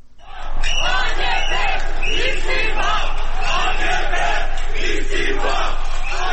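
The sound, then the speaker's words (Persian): A crowd of protesters in Istanbul chants together, demanding the Turkish president's resignation; loud, massed voices shout in a steady rhythmic cadence that swells in at the start and then holds at a constant level. “این صدای معترضانی است که خواستار استعفای رجب طیب اردوغان هستند.”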